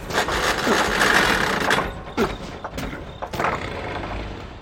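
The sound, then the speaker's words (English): A space pod engine cutting out as its fuel tank runs empty: a loud, rough roar breaks into a few coughing surges and sputters, then settles into a weaker drone. “What was that? Uh-oh. Looks like the gas tank is empty. Those maneuvers must have drained us.”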